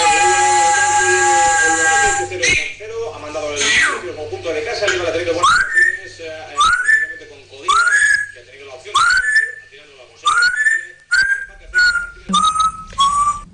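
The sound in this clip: A parrot whistling a football club anthem, a long run of many clear, sliding whistled notes in repeated phrases after a steadier opening tone, loud and fairly tuneful.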